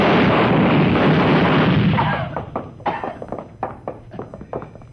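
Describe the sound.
Gunshots ring out in a radio drama scene: a loud, dense roar of noise gives way to many sharp, cracking bursts fired in quick, irregular succession.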